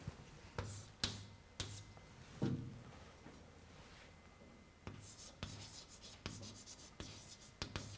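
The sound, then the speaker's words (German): Handwriting with a pen on paper makes a faint scratching sound, broken by a few sharp taps and strokes. The pen moves in an irregular rhythm. “ich schreibe jetzt mal hier weiter.”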